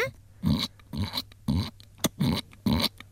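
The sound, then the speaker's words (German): A human voice imitates a piglet with five short, noisy squealing grunts in an even rhythm, fairly faint overall, with a small click between the last bursts. “Kannst du einen Ferkel nachmachen?”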